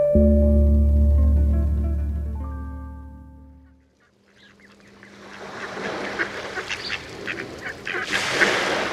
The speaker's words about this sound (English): We leave you this week in a front yard on Long Island Sound. Migrating mallards usually find their meals during stopovers in coastal marshes